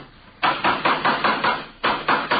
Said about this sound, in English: would you hand me that hammer there, officer?